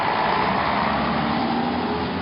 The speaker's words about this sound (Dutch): Tom Poes rende achter de autobus aan en hees zich op de treeplank